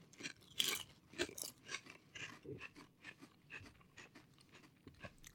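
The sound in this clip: Crunching and chewing of meat-flavored potato chips, with many crisp, irregular crunches of varying loudness across the whole stretch and no talking.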